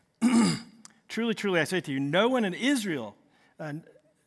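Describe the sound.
A man clears his throat during a sermon, starting with a rough, noisy rasp followed by a run of voiced, grunting hacks that rise and fall, then one short final clearing after a brief pause.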